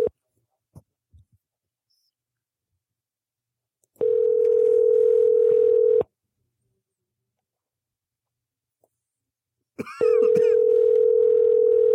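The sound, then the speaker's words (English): Telephone line tone while placing a call: a steady mid-pitched tone sounds twice, each burst lasting about two seconds, separated by a few seconds of near silence, with a few faint clicks near the start. “We're going to be calling D Banks right now.”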